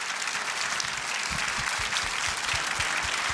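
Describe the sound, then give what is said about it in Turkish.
An audience applauds as stage performers are introduced, giving a full, continuous roar of clapping with regular low thumps running beneath it partway through. “Kocaman alkışlarınız bizlere de moral olacaktır.”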